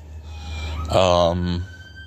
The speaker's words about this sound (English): I apologize for the sirens going on behind me. I'm sitting by the window.